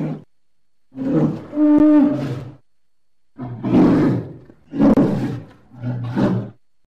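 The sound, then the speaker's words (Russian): A polar bear vocalizing in a series of deep, rough roaring growls, several separate loud bursts with short silent gaps between them. “Белый медведь.”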